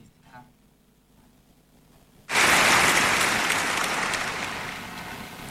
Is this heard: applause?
yes